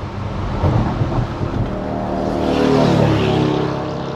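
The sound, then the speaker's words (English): Loud engine roar of a fast motorcycle passing on a road among slowing cars, a dense rushing drone that swells to its peak near the end and stays strong. “that was a really fast motorcycle.”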